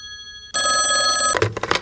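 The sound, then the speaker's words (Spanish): A telephone bell rings loudly in one sustained, metallic burst after a brief quieter tone, then breaks off into a few short noises. “¿El teléfono? Pero qué raro, si este solo suele sonar al final del programa.”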